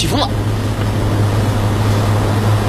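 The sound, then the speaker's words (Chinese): Strong wind and heavy rain roar during a thunderstorm, a dense, unbroken wash of noise that stays loud and even throughout. “起风了、雨太大了，我就先进屋了啊。”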